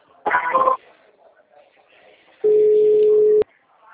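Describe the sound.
A telephone tone sounds while a call is transferred: a steady single-pitch beep lasting about a second, after a short, noisy burst earlier on a quiet line.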